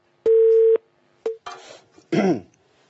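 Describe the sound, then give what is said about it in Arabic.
Telephone line tone after a call drops: a steady, mid-pitched beep lasting about half a second, then a much shorter second beep, followed by a couple of brief rough noises. “طيب إن شاء الله تعالى يعني اتصال انقطع”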